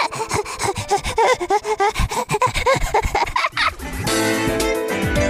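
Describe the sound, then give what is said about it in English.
A child imitates hyperventilating breathing with many rapid, loud, rasping breaths in a quick, uneven rhythm. “She says that sometimes I hyperventilate. It sounds like this.”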